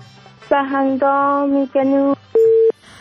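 Telephone line tones after a call dropped: four separate electronic beeps, the first three buzzy and rich in overtones and the last a purer steady tone, each ending abruptly with brief gaps of quiet between them.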